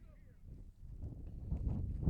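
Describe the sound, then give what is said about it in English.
Wind gusts across an outdoor high school baseball field and buffets the microphone as a faint, low rumble that builds steadily over a couple of seconds. “As the wind starts to kick up, pushing out to left.”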